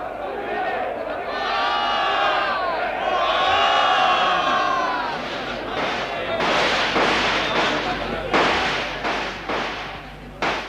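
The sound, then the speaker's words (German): Gunfire sounds during a battle between soldiers and rioting weavers. Shouting crowd voices come first, then several sharp, loud bangs burst out at uneven intervals over the noisy commotion. “Die schießen wieder.”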